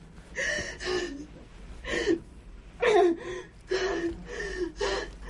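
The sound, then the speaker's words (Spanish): A young woman gasps for breath during an anxiety attack. A series of sharp, voiced, ragged gasps and strained inhalations comes in an uneven rhythm, moderately loud with brief pauses between them. “Se lleva las manos al cuello con dificultad para respirar.”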